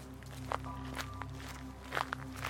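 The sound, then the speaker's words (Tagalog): Faint footsteps of a person walking away from a grave in a cemetery: a few soft, uneven steps over a steady low hum, with no voices. “Unang tumayo si Lawrence at naglakad.”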